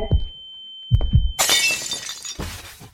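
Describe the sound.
A real wine glass breaks: a few dull knocks, then a bright, sharp shatter with tinkling shards that trails off into a scatter of lighter clinks.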